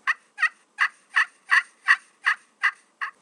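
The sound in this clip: Turkey hen yelps: nine evenly spaced, raspy notes in a steady, unhurried cadence, each a short yelp of similar length, fairly faint and alone.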